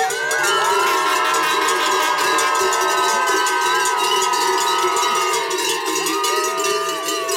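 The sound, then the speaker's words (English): Noisy French fans at an alpine skiing course: clanging cowbells ring over a loud, continuous crowd din, threaded with wavering sustained tonal blares throughout. “To say that the atmosphere at the alpine skiing has been amazing is a bit of an understatement. Alessandro Poggi ran into some very noisy French fans.”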